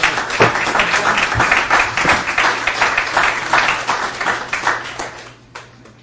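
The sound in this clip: Audience applause welcomes a speaker at a recovery meeting: lively, dense clapping that stays strong for several seconds, then thins and fades out toward the end.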